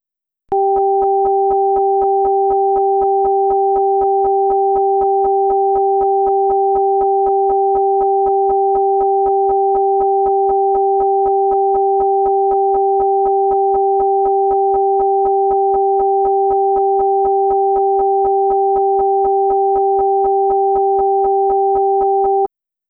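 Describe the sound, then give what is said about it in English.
A high sine tone and a low sine tone sound together, one in each ear, as an earphone listening-test pattern. Both hold steady and loud for the whole clip with no break. “If you hear a high tone in one ear and a low tone in the other ear, decide which ear is hearing the high tone.”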